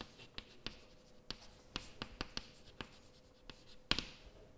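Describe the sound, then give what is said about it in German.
Writing on a board during a physics lecture makes faint, sharp taps and scratches in an irregular rhythm, with one louder tap near the end and no talking. “Das schreibe ich eben mal auf.”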